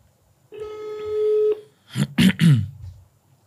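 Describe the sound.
Ringback tone of a phone call waiting for someone to answer, heard as one steady mid-pitched tone about a second long, followed by brief, clipped voice sounds.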